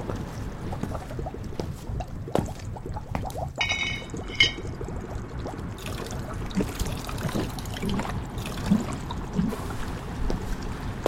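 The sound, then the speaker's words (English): Liquid sound of experimental shampoo poured onto a man's hair and scrubbed in: a steady wet, gurgling wash with small splashy clicks and squelches throughout, no voices. “Anita poured a good amount of the shampoo onto Woody's hair and began scrubbing.”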